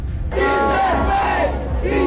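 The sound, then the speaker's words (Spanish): A crowd of supporters chants and cheers as a presidential candidate arrives at a polling station to vote. The loud, dense roar starts abruptly after a brief quieter moment and holds steady to the end. “Aquí fue recibido por un grupo numeroso de simpatizantes que lo recibieron en medio de arengas y aplausos.”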